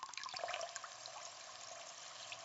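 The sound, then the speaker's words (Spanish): Flowing river water gives a faint, continuous trickling rush with small bright splashes, steady and even from start to end. “Agua que fluye del río, agua que viene del mar.”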